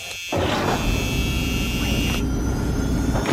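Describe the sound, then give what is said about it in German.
An aircraft engine starts up, heard from the cockpit. A sudden onset leads into a steady, loud roar with a high whine layered on top, continuing to the end. “So, jetzt setze ich mich mal in meinen Pilotensessel, anschnallen und starten.”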